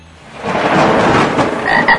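Frogs croaking in a loud, dense chorus around water, a continuous rasping mass of calls that swells and holds for about two seconds, with no voices.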